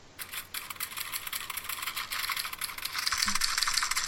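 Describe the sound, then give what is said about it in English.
Typewriters clatter with rapid, continuous keystrokes, suggesting critics hard at work in 1963. The dense, fairly quiet tapping grows a little louder toward the end. “That's the sound of our critics hard at work in 1963, working their typewriters to the bone and their fingers on their typewriters to the bone to get these reviews out.”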